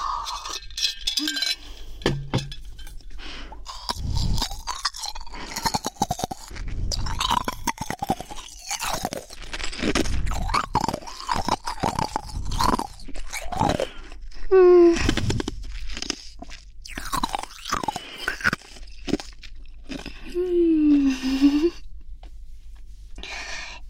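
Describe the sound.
Ice being crunched and chewed: many crisp, irregular crunching bites and grinding chews, fairly loud and close together, with short pauses between bursts.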